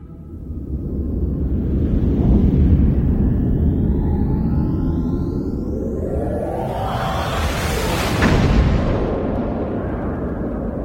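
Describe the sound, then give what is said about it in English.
Spaceship thrusters firing with a deep, continuous roar and rumble, swept by rising whooshing tones and swelling twice to louder, fuller bursts, with no voices heard. “Firing thrusters. Time to get back to work.”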